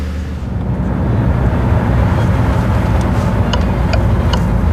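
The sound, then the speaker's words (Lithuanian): A minibus engine rumbles steadily as the vehicle turns into the courtyard of grey-white apartment blocks. The low noise is continuous, with faint ticking clicks in the second half and no voices. “Autobusiukas įsuka į pilkai baltų daugiabučių namų kiemą.”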